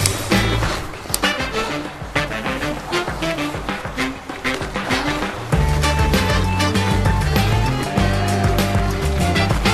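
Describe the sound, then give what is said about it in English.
Bicycle with studded tires riding along an icy winter greenbelt trail, a continuous gritty, rattling crunch broken by irregular bumps and jolts, growing louder and fuller partway through. “Oh my gosh, thank God for studded bike tires.”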